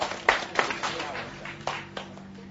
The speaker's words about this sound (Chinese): 最后一个归荣耀，给他一个掌声好不好？